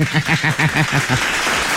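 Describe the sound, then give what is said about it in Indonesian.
Audience clapping during a quiz session with children: dense, steady applause that runs without a break through the whole short stretch. “Hai, tepuk sikit.”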